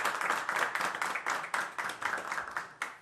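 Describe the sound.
An audience in a kafana claps in rhythm, many sharp, evenly spaced claps in a quick steady beat, fairly faint and with no voices.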